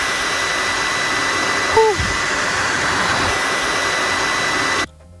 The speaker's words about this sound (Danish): Det er rigtigt. Det er en PlayStation 4.